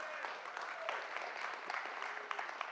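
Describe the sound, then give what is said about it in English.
A church audience applauds its guests with a dense, even patter of many clapping hands that holds steady throughout. “Yeah, give it up for our guests, church.”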